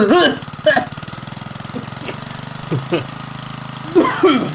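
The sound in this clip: An old pull-start engine machine runs with a rough, rapid, even chugging and a low rumble. People talk over it throughout.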